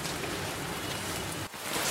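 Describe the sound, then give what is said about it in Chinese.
Heavy rain pours down in a small alley, a dense, steady hiss that holds throughout with only a brief dip partway through. “雨好大，我现在在这边躲一下雨。”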